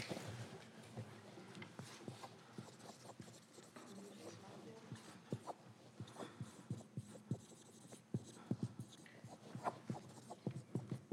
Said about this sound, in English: Let me see if I can write some stuff down here.